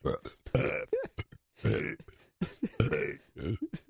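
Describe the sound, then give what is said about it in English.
A person burps out a long string of speech-like croaks, with many short and drawn-out gurgling belches in a choppy, word-like rhythm. “Yeah, anyone can burp.”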